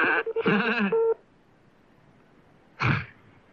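Touch-tone telephone dialing to call a radio listener back: a short run of keypad beeps in the first second, then a pause and one brief, louder tone burst.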